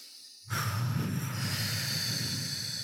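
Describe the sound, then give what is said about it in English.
A deep breath drawn during a calming exercise: a long, steady, breathy hiss that starts abruptly after a brief quiet moment and holds at an even level to the end. “So when you put your hands here, we're going to take a deep breath.”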